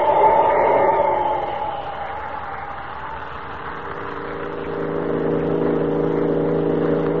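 A car engine accelerating on a road at night gives a steady droning hum with sustained tonal harmonics, dipping briefly and then building louder through the second half.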